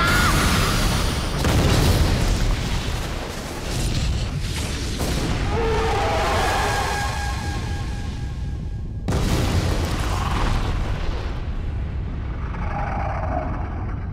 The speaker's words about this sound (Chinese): 长距离破坏加农炮。 一秒。 开火！